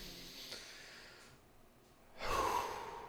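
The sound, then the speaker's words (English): A single deep breath in a quiet setting: soft airy hiss at first, then a louder, fuller rush of air swelling near the end, with no talk over it. “If you can feel into that for a minute, stop and take a deep breath with me.”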